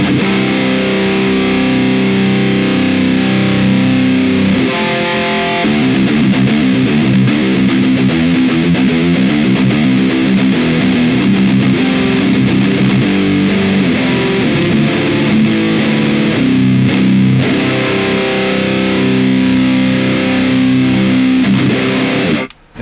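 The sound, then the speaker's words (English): Distorted electric guitar run through the Neural DSP Archetype Abasi with the DV3 speaker impulse response in stereo, playing continuous riffs with chugging low notes at a steady, full loudness that cuts off abruptly at the end. “Now, when we utilize the DF2 CV-DV3 speaker impulse response in stereo in the archetype Abbasi from Neural DSP, it sounds like this.”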